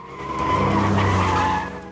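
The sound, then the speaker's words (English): A Porsche speeds off in a chase, its tyres screeching in a loud, sustained squeal over a deep engine roar. The sound builds quickly, holds steady for over a second, then fades. “Cheryl gets into Mike's Porsche and buckles up as he speeds off after the saloon.”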